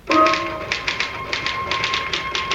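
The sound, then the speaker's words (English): Typing, with many crisp keystrokes tapped out in quick, slightly uneven bursts at a fairly steady loudness and no talk over them. “I typed the results of the fifth and sixth races at Aqueduct.”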